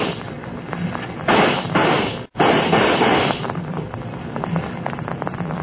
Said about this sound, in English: They shot him. Nothing but a Bible in his hand, they shot him.